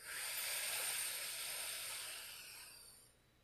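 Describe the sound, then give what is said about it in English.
One long, deep inhaled breath: a soft, airy hiss that swells quickly, holds, and then slowly fades, heard alone. “Go ahead and take another deep breath in.”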